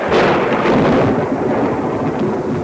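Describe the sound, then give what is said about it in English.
Castle Thunder, the thunder sound effect recorded for Frankenstein (1931): a loud, heavy peal of rolling rumble that roars continuously without distinct cracks and eases only slightly toward the end. “which is called Castle Thunder, originally recorded for Frankenstein in 1931 and used in, innumerable films. Probably every single peal of thunder in every movie from”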